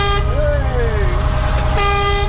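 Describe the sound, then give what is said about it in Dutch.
Horns sound as children pull cords to honk them, producing long sustained tonal toots with a wavering pitch, one steady blast and a second starting near the end, loud over a constant low rumble. “Al die kindertjes die staan aan de horens te trekken.”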